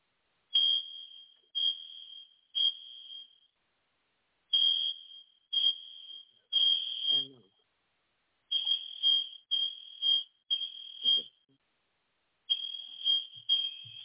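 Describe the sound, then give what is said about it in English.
High, piercing beeps from a malfunctioning fire alarm going off at the wrong time during a church communion service, sounding in irregular short bursts of two or three chirps separated by silent gaps, many in all, fairly faint. “that's just a fire alarm doing its thing, off timing.”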